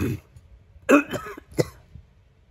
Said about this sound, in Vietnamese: Một trận ho khan kịch liệt, hoàng đế bất giác ho ra mấy ngụm máu tươi